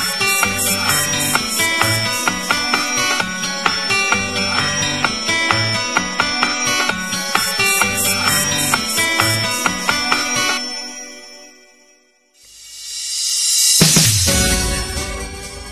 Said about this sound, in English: What you just heard there was from Virtual Racing Deluxe. That's the ending theme, that's specifically the 32X version and not the arcade version of Virtual Racing.